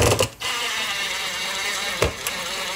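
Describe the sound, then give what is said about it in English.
A screw driven into a drywall wall anchor with a power driver: a steady mechanical whir with two brief dips, the motor running on alone with no talk. “And then we're gonna take the coordinated screw that comes with the set. Comes with the set. Drive that part in nice and slow.”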